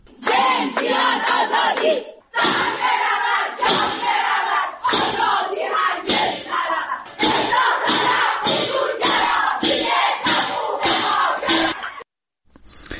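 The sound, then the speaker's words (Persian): Prisoners at a Saturday-evening protest gathering inside a prison chant slogans in unison, including against the death penalty; loud rhythmic bursts of massed voices repeat in short phrases with brief pauses, with one longer break early on and an abrupt stop near the end. “بر اساس فایل صوتی که از این تجمع منتشر شده، زندانیان شعارهای اعتراضی سر می‌دهند.”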